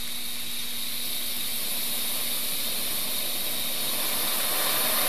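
Steady, loud hissing roar of a gas and oxygen torch flame while the gas and oxygen mix is adjusted, continuous and even throughout with no talking.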